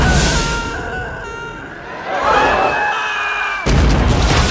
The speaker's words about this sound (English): He crashes into the fireworks.